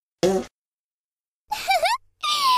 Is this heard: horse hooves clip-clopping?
no